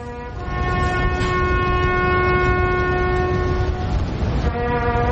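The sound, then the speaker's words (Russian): A bugle sounds the Last Post for the lowering of the British flag at the governor's residence in Hong Kong: one long, loud, brassy note held steady for about four seconds, alone without voices. “Вот сигнал к спуску британского флага в резиденции губернатора.”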